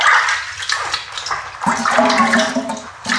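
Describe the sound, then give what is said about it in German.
Water splashes and runs as a person washes, making a loud, continuous noisy wash with shifting surges and no talk. “Ich werde mich jetzt mal waschen.”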